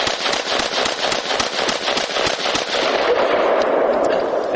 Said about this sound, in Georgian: გასწრაფად ისვრის, არა? ასე ისვრის თვით დამტენი შაშხანა ბუშმასტერი.